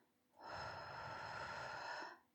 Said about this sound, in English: In. One, two, three, and out.